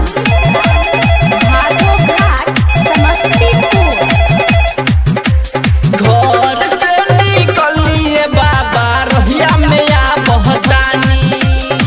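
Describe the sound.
Loud electronic telephone ringtone playing a busy, repeating melodic pattern without pause, its tone briefly changing partway through before the original figure returns.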